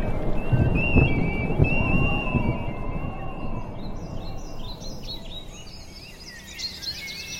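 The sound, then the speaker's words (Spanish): Birds whistle and chirp outdoors in a mountain setting, high thin calls scattered over a steady low rumble, growing busier and more frequent through the second half. “los sonidos que hay son los silbidos de los pájaros, los cantidos de cada ave que uno escucha”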